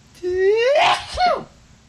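A single loud sneeze from a person with allergies: a voiced intake rises in pitch and snaps into a sharp burst, followed by a shorter voiced after-sound.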